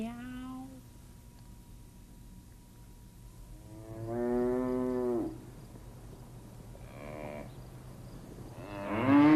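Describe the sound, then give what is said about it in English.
A cow moos several times, with drawn-out lowing calls separated by quiet gaps. The middle moo is the loudest and longest. “I think that's a cow.”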